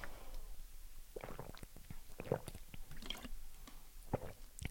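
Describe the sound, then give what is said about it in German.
Soft gulping and wet mouth sounds of someone taking a drink, a quiet run of many brief swallows and clicks with no talking. “Also ja, ich muss mal was trinken.”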